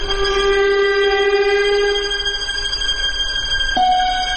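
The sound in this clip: A train approaches at night, its horn held as one long, sustained, multi-tone blast at steady loudness, with an abrupt shift in tone near the end and no voices.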